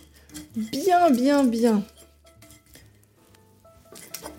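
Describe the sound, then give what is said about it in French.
A fork scrapes and clinks against a bowl as warmed butter is mashed. The clatter is soft and intermittent, and a person talks over part of it. “bien malaxer mon beurre avec ma fourchette”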